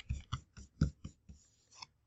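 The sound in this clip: Something being cut in a series of short, dull strokes, several of them, unevenly spaced and fairly faint, with no voices.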